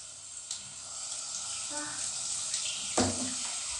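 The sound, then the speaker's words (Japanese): Shower water runs from a showerhead in a steady, broad hiss of spray with small shifts in intensity and no pauses. “じゃあ、シャワー出していきます。”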